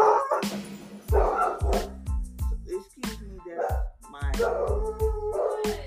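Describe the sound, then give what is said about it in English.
A dog barks and yips in quick, repeated bursts, mixed with high, whining cries that fall in pitch, fairly loud and continuing throughout. “dog making that noise”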